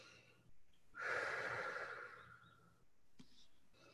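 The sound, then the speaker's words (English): A person breathing out loud, a short breath followed by one long, breathy exhale lasting nearly two seconds, soft and airy, with faint noise afterward. “So what I'm doing is making maybe, look, I'm going to breathe out loud.”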